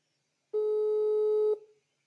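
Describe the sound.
A telephone busy tone sounds after a call is rejected. One clear, steady mid-pitched beep lasts about a second and stands alone against silence before it cuts off with a short trailing decay.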